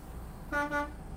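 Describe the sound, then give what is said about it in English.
Quick double toot of a truck horn during a lesson at a truck driving school. The horn is a brief, faint, brassy blast with a slight dip in the middle, heard over a low hum of engine and road noise. “A little blow on the horn there. Make sure nobody's out hanging out.”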